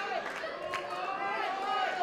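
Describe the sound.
A wrestling crowd chants and cheers around the ring, a steady wash of massed voices with someone talking over it.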